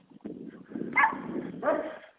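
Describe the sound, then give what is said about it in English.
A dog barks on the street: a couple of sharp, fairly loud barks with a yelping edge rise out of a steady low background rumble. “I'm going to try to cross the street to get away from this dog.”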